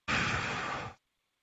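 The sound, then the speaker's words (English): One deep breath taken by a person mid-conversation: a soft, breathy rush that lasts just under a second, heard alone and followed by silence. “Did you just breathe? Yes, I took okay. a nice breath.”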